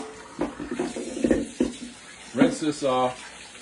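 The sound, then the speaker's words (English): A Housnat cold press juicer part is rinsed under running tap water, a steady splashing flow beneath a person talking. “and this can pop out like so. So you just rinse this off.”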